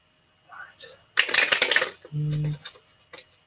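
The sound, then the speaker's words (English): Papery rustle and snap of a card being drawn during a card reading: a dense burst of handling noise lasting about a second, with softer scattered taps around it. “Just give me one second here. I can feel you right now. So give me one second. I'll draw you one card to see if you're going to get him back.”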